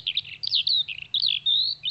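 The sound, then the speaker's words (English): Skylarks sing over the hills above Chinley: a high, continuous, trilling warble of rapid chirps and slurred notes, loud and clear, broken by brief gaps, over a faint low hum. “And the skylarks are out singing again.”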